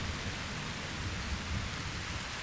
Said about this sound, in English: And with a flash of lightning, we fade to black.